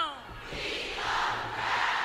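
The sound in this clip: A crowd at the women's march in Washington raises a broad, sustained roar of voices, building slightly after the first half second and staying fairly faint and even to the end.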